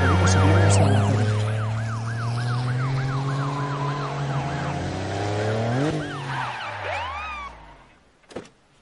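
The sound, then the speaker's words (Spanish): A car driving with its siren on, giving a loud wail that rises and falls in quick repeated sweeps over a low engine drone. The siren dies away near the end, followed by a brief knock. “El coche de Rafa circula con sirena.”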